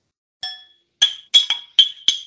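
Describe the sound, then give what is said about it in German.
Glasses clink in a celebratory toast: six bright ringing taps, a single one first and then a quicker cluster of five, each with a short shimmering decay. “Wir feiern jetzt ja auch noch ein kleines bisschen weiter und stoßen jetzt irgendwie, glaube ich, auch gleich nochmal kurz an hier.”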